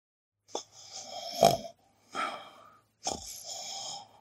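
Three rasping snores from someone dozing off for a quick nap during a geography lesson, each a rough, drawn-out breath with short pauses between, the first one catching in a brief snort.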